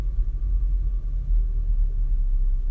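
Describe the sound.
A steady, deep rumble fills a car interior while it is being driven, low and constant with slight swells and no talk.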